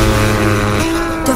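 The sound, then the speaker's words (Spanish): Car engines rev loudly in a dense, continuous roar, the engine note stepping up in pitch twice as they accelerate. “Arranquen los motores, ha llegado la hora de pisar el acelerador.”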